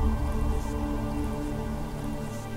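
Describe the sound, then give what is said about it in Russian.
Cold rain falls in a steady, even hiss of drops striking a surface. It is continuous and unbroken for the whole stretch, with no voices. “Под холодный шум дождя они медленно прошли по коридору.”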